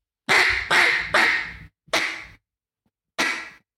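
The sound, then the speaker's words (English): Quacks blown on a duck call: five loud, raspy blasts. The first three come in quick succession, a fourth follows after a short pause, and a fifth comes after a longer gap. “If you blow on it, like if you blow into a duck call, that napkin's going to take place. If you put air into a duck call,”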